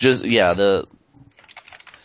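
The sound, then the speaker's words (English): Keyboard typing while writing a note: a run of quick, light, irregular key clicks, fairly faint, coming right after a short burst of a person talking. “I'm writing that down. I'll actually add it to the calendar right now.”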